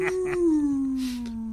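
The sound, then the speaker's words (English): A person's voice imitates a timber wolf howl: one sustained, smooth tone whose pitch sinks gently as it is held, with a breathy edge. “that's my Timberwolf impression.”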